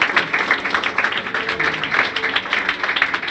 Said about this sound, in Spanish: ¿Cuántos quieren dar un aplauso a Dios, al Espíritu Santo?